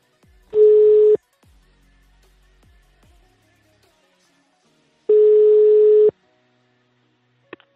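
Two long, steady, single-pitch telephone ringing tones sound about four seconds apart while a number is being called. Faint thumps fall between them, and a brief click comes at the end.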